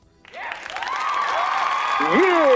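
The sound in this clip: Audience applause that rises quickly from near silence into dense, sustained clapping and holds there, with voices heard over it.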